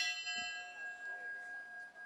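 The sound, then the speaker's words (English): A bell rung at a memorial in Buffalo for ten people shot in a grocery store. One faint struck tone holds a long, steady ring of several overtones, with no voices. “They rang a bell 10 times.”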